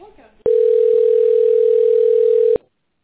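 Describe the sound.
A steady telephone line tone plays while a call is being transferred, a single loud, unbroken pitch held for about two seconds after a brief faint sound, then cutting off sharply.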